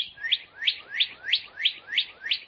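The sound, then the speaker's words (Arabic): A small caged bird chirps seven times in a steady, even rhythm. Each chirp is a high, bright note that sweeps upward, clear and alone over near silence. “لكن العصفور لم يعجبه القفص وظل يصيح.”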